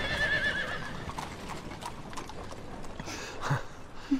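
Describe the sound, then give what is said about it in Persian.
Horse hooves clip-clop faintly as a horse-drawn carriage starts off, with soft, steady steps and a brief whinny near the end. “کالین سوار می شود. کالسکه راه می افتد. راه بیافت.”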